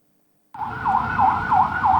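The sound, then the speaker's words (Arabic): An ambulance siren wails in the streets of Sidon, southern Lebanon, starting abruptly after a short silence and cycling through a few loud, regular rising-and-falling sweeps. “في شوارع صيدا جنوبية لبنان لا تهدأ صفارات الإسعاف ولا تتوقف فرق الإنقاذ عن التنقل بين مواقع الاستهداف.”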